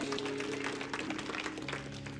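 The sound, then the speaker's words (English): Church audience giving a round of applause in praise, faint scattered clapping with a low sustained tone underneath. “Give the Lord a big hand of praise.”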